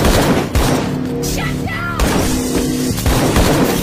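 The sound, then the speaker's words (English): Gunfire during a violent attack in a hospital, loud and dense, with a few sharp bursts standing out against a busy, continuous noisy background. “That's why I'm bleeding. I think I've been shot. I can feel a hole in my ribcage.”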